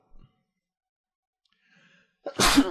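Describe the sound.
A single loud sneeze bursts out sharply near the end after a stretch of near-silence broken only by a tiny click and a faint breath.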